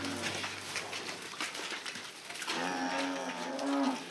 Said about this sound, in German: Das Jungvieh kommt raus. Nach Monaten im Stall dürfen die Rinder zum ersten Mal auf die Weide.